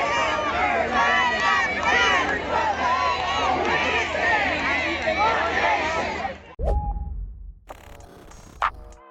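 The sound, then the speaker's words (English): Crowd noise from QAnon followers gathered in Dallas, Texas: many overlapping voices in a loud, busy murmur for about six seconds, which cuts off abruptly and leaves only faint scattered sounds. “that large crowd that you saw was comprised of QAnon cult followers who gathered in Dallas, Texas to witness the return of JFK”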